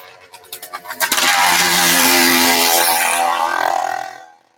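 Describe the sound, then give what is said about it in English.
A small mini bike engine sputters with quickening putters, then builds into a loud, steady buzzing roar before it trails off and cuts out. “Mini bikes, man. There's these mini bikes all over the place.”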